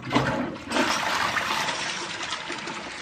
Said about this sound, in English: That's the sound of a pair of New Balance shoes being flushed down a toilet.